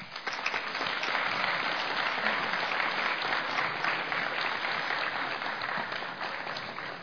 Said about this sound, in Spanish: Les invitamos y les damos un fuerte aplauso.